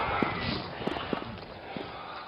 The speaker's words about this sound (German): Das ist mein eigener Sound, den ich produziert habe mit meinen Schritten.